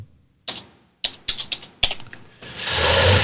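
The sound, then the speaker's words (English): A few separate keystrokes on a computer keyboard, typing into a browser address bar, sharp clicks spaced unevenly before a steady hiss rises. “Hold on a second. I keep typing the wrong thing in the damn URL slots.”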